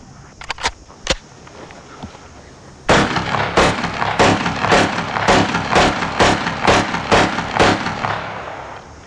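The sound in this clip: Gunshots at a shooting range during target scoring: a few scattered sharp cracks, then a long run of many louder shots in quick, fairly regular succession.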